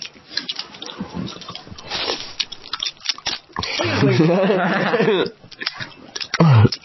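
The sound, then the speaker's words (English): Gum being chewed with wet, squishy mouth sounds and soft patters, mixed with people talking. “Can we get some gum ASMR?”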